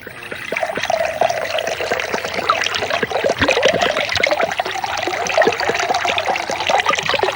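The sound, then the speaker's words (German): Soda water pours into a glass with a steady, fizzy trickle. Crackling bubbles and splashes continue throughout at an even level, with no voices. “Willst du was trinken? Soda Wasser. Ah, okay. Ich schenke dir was ein.”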